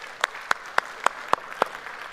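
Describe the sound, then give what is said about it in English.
Applause welcoming church family members at a Sunday service: a steady, even rhythm of six sharp claps. “So if you would put your hands together and welcome them into our family room here today.”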